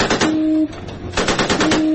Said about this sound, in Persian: ناو آمریکایی تیر اخطار شلیک می‌کند و پس از آن قایق سپاه صحنه را ترک می‌کند.